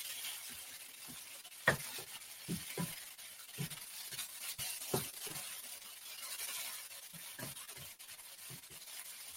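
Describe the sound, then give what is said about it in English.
Soft scraping and stirring as tofu scramble and spinach cook in a pan, faint repeated rubs of a utensil against the pan with a light sizzle beneath and a few sharper knocks scattered through. “Cooking that tofu egg. All right and the spinach will really wilt down to, to nothing.”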